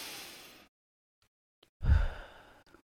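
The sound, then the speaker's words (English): Deep breathing during a calming exercise: a long, airy exhale fades away, and after a pause a second, heavier breath follows with a low, rumbling push of air. “Now we just took a few deep breaths to calm our nervous system.”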